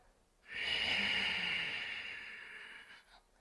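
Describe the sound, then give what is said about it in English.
A single long exhale during a guided breathing exercise, a steady breathy hiss that swells quickly and lasts almost three seconds before slowly fading, with no talking. “And now inhale and hold. Stay up, exhale.”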